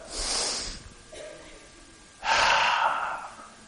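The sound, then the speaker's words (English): A person who snores and wears a breathing device on the face imitates the deep gasping breath taken just before dozing off: a shorter airy breath, then a long, loud, lung-filling inhale, with no words. “that's that breath you get just before you doze off. That's that good breath. That one that really fills your lungs and allows you to relax.”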